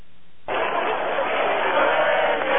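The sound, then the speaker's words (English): Roaring crowd celebrating the opening of the Berlin Wall in 1989, a dense wash of cheering and clamoring voices that bursts in after a brief lull and stays loud and steady to the end. “This was the sound of 1989, the sound of people who passed through a decades-old barrier to raise glasses in the West, the sound of the ultimate communist party.”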